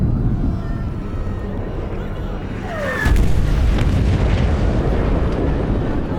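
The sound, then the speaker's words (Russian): Artillery shells fall and explode around a fortress under bombardment. A heavy, continuous low rumble runs throughout, and a brief descending whistle in the middle leads into a louder, sustained booming burst. “Падают и взрываются снаряды.”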